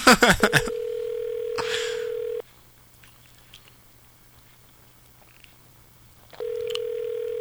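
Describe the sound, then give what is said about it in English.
Telephone dial tone heard while dialing: a steady, loud, low hum follows a few quick clicks at the start, cuts off into near silence, then returns unchanged near the end. “Dialing again.”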